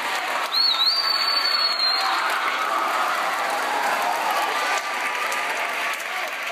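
High school students applaud and cheer at a school assembly after beating their ACT growth goal: sustained, loud, dense clapping with a brief high whistle near the start, continuing steadily throughout.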